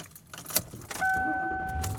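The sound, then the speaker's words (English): Car sounds from someone driving home: a few clicks and a brief metallic jangle like keys, then a steady high whine joins a low rumble and holds to the end, with no talk. “And I am driving home.”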